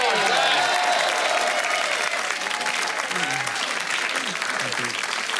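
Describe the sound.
A studio audience applauds to welcome a guest onto the set, a dense, sustained clapping that stays loud across the whole stretch.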